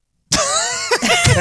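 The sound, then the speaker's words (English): A person coughing: one sudden, rough burst followed by a couple of smaller raspy throat sounds, loud and close, with no talk around it. “You're coughing.”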